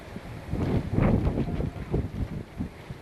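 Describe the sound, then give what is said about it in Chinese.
Strong gusty wind from an approaching typhoon on the coast of Wenzhou, Zhejiang, buffeting the microphone with a loud, low rumbling roar that surges and pulses unevenly. “可以从画面当中看到这个风相当的大，这个我头发都吹起来了”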